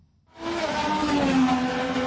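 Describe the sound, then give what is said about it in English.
A race car roars through Washington streets during a 25-driver street race near the National Mall and Capitol: an engine drone sweeps in abruptly and holds as a strong, steady whine for about two seconds. “A city used to races for power, but none quite like this. President Trump waved the green flag and then they were off. 25 drivers roaring through the Capitol's streets.”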